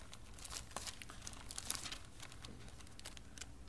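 Thin Bible pages are turned with a faint, continuous papery crinkle and rustle, broken by a few sharper crackles.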